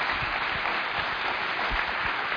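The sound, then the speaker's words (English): Audience applause for a colleague at a meeting, a dense and steady wash of clapping that holds at one level throughout. “Just welcome him with an applause.”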